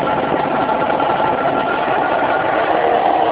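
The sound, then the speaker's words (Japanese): A 40-horsepower engine on a small flying machine runs as a steady, loud, buzzing drone with an even mid-pitched hum and no clear change in speed. “エンジン始動。”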